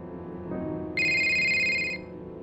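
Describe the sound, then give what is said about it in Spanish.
A phone rings with an incoming call at 2 a.m.: a low electronic tone gives way to a bright, steady, high-pitched ring lasting about a second. “Así que espero puedan imaginarse mi sorpresa cuando recibí una llamada suya a las 2 de la mañana”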